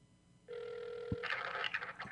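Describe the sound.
A telephone rings during an outgoing call. A steady ringing tone starts after a short silence and holds, with extra clattering noise laid over its second half.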